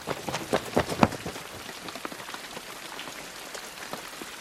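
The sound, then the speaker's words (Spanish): Rain falls on the large window of a houseboat as a steady, dense patter, with a handful of louder drops striking in the first second before it settles into an even hiss of small taps. “La lluvia cae sobre el ventanal de la casa flotante.”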